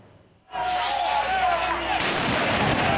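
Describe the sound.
Loud bursts of fireworks at a street clash between anti-corruption protesters and police outside a government building, with Molotov cocktails and tear gas, a dense continuous crackling roar that jumps louder partway through, no clear talk.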